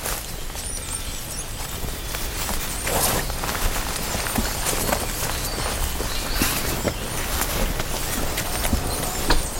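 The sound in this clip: Footsteps through a wild peat bog: many irregular, soft steps with rustling and brushing sounds, steady and fairly loud throughout, with no talk.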